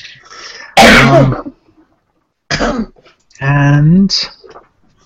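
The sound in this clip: Coughing and throat clearing after something went down the wrong way: a few harsh, loud bursts separated by short pauses, with some voiced, strained sounds.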